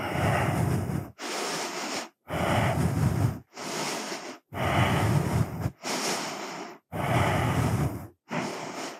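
Slow yoga breathing during a standing balance pose gives eight long, breathy breaths of about a second each. Short silences separate the breaths, which are moderately loud with no talk.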